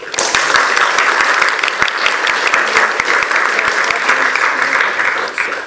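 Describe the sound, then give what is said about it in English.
An audience applauds to welcome two presenters before a cinema talk. The clapping is loud and sustained, holding a steady, dense level for the whole stretch. “So please join me in welcoming them both.”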